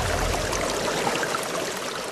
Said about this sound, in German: soeben setze ich das Pumpwerk für die neue Wasserversorgung unseres Dorfes in Betrieb.